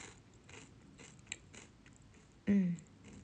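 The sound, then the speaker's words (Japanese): Chewing of okaki rice crackers flavoured with green laver: faint, crisp crunches repeat in a loose rhythm, and a louder, short burst follows near the end. “なんかもらったおかきを食べてるんですけど、青のりの味がして”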